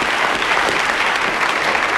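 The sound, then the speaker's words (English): Studio audience applause, a dense, steady clatter of many hands clapping at full strength throughout, with no voices standing out. “so let's give a round of applause now to June Whitfield”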